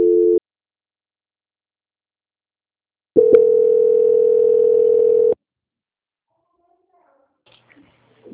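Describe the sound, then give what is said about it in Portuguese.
A steady telephone line tone plays while a call to a bank is put through on transfer: a brief clipped beep, a silent pause, then one unbroken tone of about two seconds, followed by near silence. “que eu vou transferir o contato para o controle de qualidade do Banco Santander, que dará continuidade à sua contratação. Vai ficar mudo por alguns instantes, mas não desligue”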